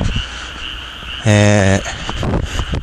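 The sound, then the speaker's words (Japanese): A frog croaks once, loud and buzzy with a rich, ringing tone, in the middle of a short stretch of faint background chirping and noise. “カエルの声です。”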